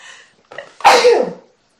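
A single loud sneeze: a brief gasping intake of breath snaps into an explosive burst that trails off within about half a second.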